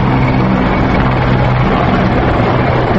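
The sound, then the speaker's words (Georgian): A Su-25 attack aircraft flies over a military parade, its engine roar loud, dense and unbroken throughout, a steady low-heavy rush with no voices. “მოიერიშე თვითმფრინავი სუ-25, რომელმაც დაასრულა კიდეც საზეიმო აღლუმი.”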